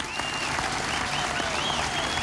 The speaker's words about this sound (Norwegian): Give them a good hand. La dem få en skikkelig applaus.